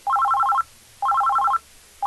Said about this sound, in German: Oh, pardon, ein Anruf. Also das geht jetzt aber gar nicht. Entschuldigung, das ist hier verboten. Handygespräche.